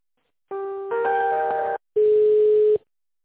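Electronic telephone tones while an office call is transferred: a steady beep shifts into a fuller multi-note chord, then after a brief gap one more steady lower tone sounds. Loud and clean, with no voices.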